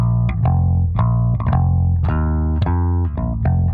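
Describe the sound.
A bass line on bass guitar is played alone. Deep, plucked notes ring and sustain in a loud, steady, groovy rhythm, with a few slides between pitches.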